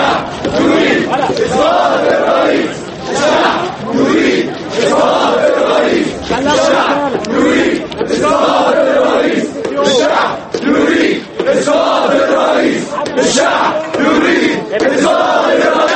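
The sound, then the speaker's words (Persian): Protesters in Egypt demand Mubarak's resignation, a loud crowd chanting in a steady rhythm of repeated shouted bursts. The chant holds strong for the full sixteen seconds with only brief breaths between phrases. “صدها نفر از تظاهر کنندگان قطع نظر از استعفای حکومت مصر و وعده رئیس جمهور حسنی مبارک به اصلاحات گسترده از نو به کوچه و خیابان ها ریختند. آنها استعفای مبارک را که 30 سال باز رئیس جمهور مصر است طلب می کنند.”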